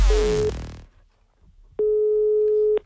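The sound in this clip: A single long, steady telephone ringback tone of an outgoing call placed from an embassy, loud and even for about a second, following a brief burst of other sound and a quiet gap.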